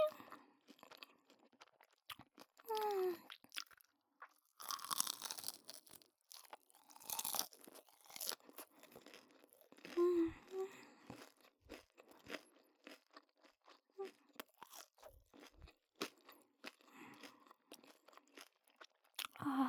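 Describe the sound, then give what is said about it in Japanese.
Crunchy cartilage being chewed, heard as many quiet, irregular crunches and soft bites that repeat throughout. “ご主人様、軟骨出てきました。おいしい。”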